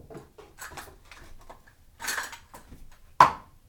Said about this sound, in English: And we'll also get a cup out to measure the onion with.